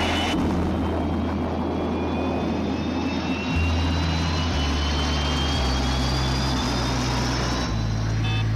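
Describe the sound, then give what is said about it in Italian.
An airplane takes off with a steady, loud engine roar and a deep rumble. A high whine rises slowly in pitch throughout, and there is no talk. “Decollo perfetto, comandante. Non risultano difetti di nessun genere.”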